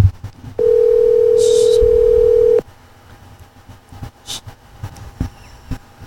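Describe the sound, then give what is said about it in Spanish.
A telephone dial tone sounds while a call is being placed: one loud, steady, unbroken tone lasting about two seconds, then it cuts off, leaving quiet background noise with a few faint clicks. “Estamos llamando a Mateo, espérate.”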